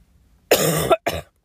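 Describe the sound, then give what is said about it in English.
Two harsh, loud coughs, a longer one followed by a short second one after a brief pause, with no speech around them. “I'm sorry, tuberculosis cough.”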